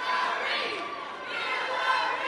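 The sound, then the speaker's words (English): A large crowd of supporters surrounds a candidate at a Democratic Party dinner in a convention center in Columbia, their mingled voices forming a dense, continuous roar of chanting and chatter. “John Edwards, who won the primary here in 2004, was surrounded by a large crowd of chanting supporters.”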